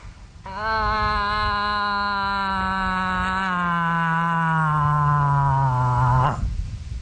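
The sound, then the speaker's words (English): A person imitates a cow moose's bawling call with one long, drawn-out nasal moan that holds steady and then slowly sinks in pitch before cutting off abruptly. “she'll do the bawling cow call in hopes that a more worthy suitor might hear her plea and respond accordingly. And it sounds something like this.”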